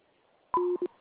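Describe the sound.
A telephone line tone after a dropped call: two short electronic beeps, the first longer and the second brief, sounding alone over a faint line hiss.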